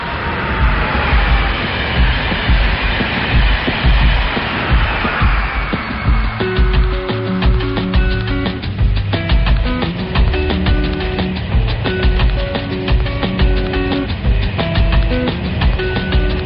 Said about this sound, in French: Je suis dans le TGV en direction de Genève.